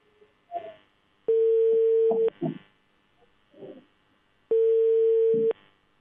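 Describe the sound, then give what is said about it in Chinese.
Telephone ringback tones sound as a call is placed to a district labour inspection office: two long, steady, mid-pitched tones, each about a second, with brief faint noises in the gaps. “刚才的这个问题，我们继续来拨打一下他们的电话。来，记者马上拨打一下他们的这个劳动保护部门啊。”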